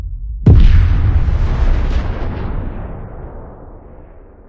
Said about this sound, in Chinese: 第二天，基地里的众人都在讨论着昨晚的爆炸。